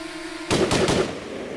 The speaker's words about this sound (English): On my mark, tell them to fire. Prepare to fire. In three. Three.